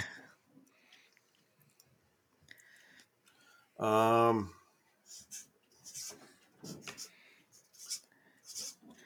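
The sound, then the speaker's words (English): Scratchy strokes of someone writing the name of a city during a quiz game, a series of short rasping bursts with speech also present. “I am writing the name of a city that I think has a prestigious orchestra, but I honestly have no idea.”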